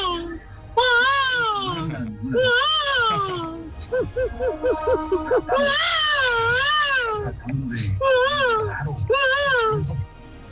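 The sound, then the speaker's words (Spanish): A person vocally imitates a child crying with loud, wavering wails that swoop up and down in pitch, broken by choppy, stuttering sobs and short gasping pauses. “mi talento oculto es llorar un niño”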